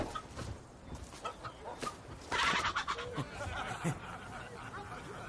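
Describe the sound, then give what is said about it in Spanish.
Rooster clucking in a historical Viking-era war drama, a few short throaty clucks over a busy, noisy background. “Le da un gallo y se aleja.”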